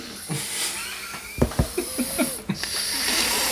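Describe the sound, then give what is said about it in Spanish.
A person tries to breathe through a blocked nose, making a few short, rasping, snorting sniffs over a hissy background. “Mira, voy a intentar respirar por la nariz.”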